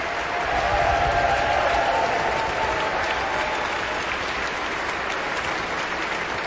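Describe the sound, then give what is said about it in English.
Sustained applause from a concert audience for an orchestra after a Shostakovich performance as the conductor bows. Dense, steady clapping holds at an even loudness throughout. “The full orchestra stands, receiving the appreciation of the audience. Delyana Lazarova bows one more time and then exits the stage.”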